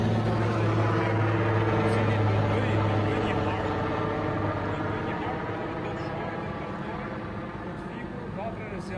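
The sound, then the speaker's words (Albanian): Firefighting helicopter flying over a mountainside wildfire, a steady and fairly loud engine and rotor drone with layered low tonal hum that holds throughout and eases slightly toward the end. “Shikojmë janë këto momente, ndjekim pak helikopterin.”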